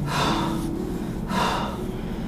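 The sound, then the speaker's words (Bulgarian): Two forceful breaths from a rapid yogic bellows-breathing exercise, each a loud, airy rush followed by a pause. “Дълбоко вдишване, рязко издишване.”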